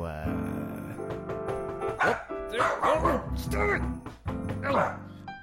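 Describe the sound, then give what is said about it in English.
A dog barks repeatedly in loud, irregular bursts, mixed with people talking. “Stop barking.”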